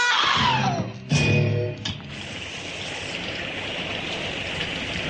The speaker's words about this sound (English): I stood in front of the cottage door, the rain splashing against my collar, running down my neck.